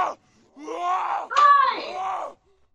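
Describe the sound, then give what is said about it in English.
A cat screams in a pair of long, wailing yowls, each drawn out and tonal, at moderate loudness with no other sound around them. “I have to go tend to a cat. She is screaming.”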